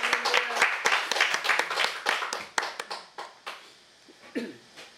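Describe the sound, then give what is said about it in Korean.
A church audience applauds during a worship service: dense, energetic clapping that gradually thins into scattered, quieter claps toward the end. “또 한 번 더 박수하겠습니다.”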